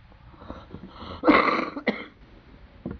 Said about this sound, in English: just loosen that little bit of phlegm there, it's all right. Just made me cough.